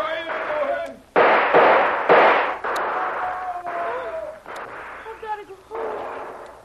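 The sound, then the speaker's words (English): Gunfire in a radio drama battle scene: a series of loud, sharp bursts follow one another with brief gaps, each cracking blast trailing off quickly, with a voice heard among the shots. “First blood for me. That'll teach them to keep down and not get careless. They're shooting wild. Trying to cover their advance. Well, I'll stop that.”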